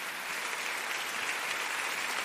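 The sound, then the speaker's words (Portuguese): Applause from an audience greeting people by clapping, a dense, steady wash of many hands at an even level with no pauses and no speech. “Vamos falar com essas pessoas através das palmas.”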